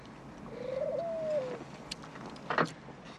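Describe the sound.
A caged bird gives one faint, drawn-out, dove-like coo that holds and then trails off, followed later by a brief burst of chirping.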